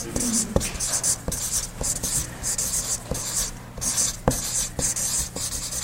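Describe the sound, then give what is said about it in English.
Handwritten notes being written with a pen: scratchy, dry strokes of the tip on paper, repeating in a fairly steady rhythm of short bursts and brief pauses. “So let me write that. The good always prosper.”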